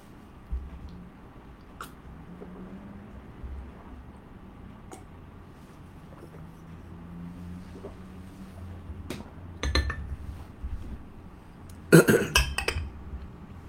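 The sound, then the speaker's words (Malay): Someone drinks water, with soft swallowing and throat sounds over quiet background, then clinks of a glass and throat noises toward the end. “Perlu minum sedikit.”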